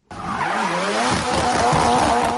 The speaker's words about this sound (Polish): Zgierzanie mówią o ogromnych prędkościach, warkocie silników i pisku opon.